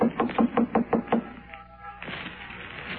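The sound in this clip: Knuckles rap on the door of a brownstone apartment in the Village in a quick, even run of sharp knocks lasting about a second. Quieter rustling follows.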